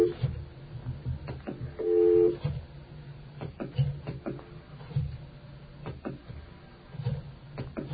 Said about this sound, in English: And I've just completed dialing, as you can tell.